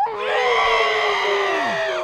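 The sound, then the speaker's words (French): A group of people scream together into their elbows, one sustained, loud, high-pitched shriek of overlapping voices lasting about two seconds before dropping away. “Venez, on crie dans notre coude. 3, 2, 1.”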